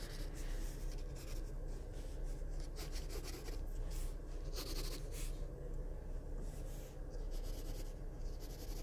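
Pencil scratching across paper while sketching a box shape during a figure-drawing session: a continuous soft rasp of quick, overlapping strokes, quiet and steady throughout, with no talking.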